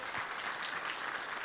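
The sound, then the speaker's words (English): An audience at a church service claps its hands in a short, steady burst of applause that is moderately faint. “Let's give a hand clap just for the twins coming.”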